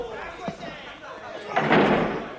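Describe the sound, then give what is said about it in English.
Prison cell doors sliding closed at lights-out: a loud, rushing metallic slide and clatter builds near the end, after a softer knock, with a voice heard over it. “The inmates traipse into their cells. The doors slide closed.”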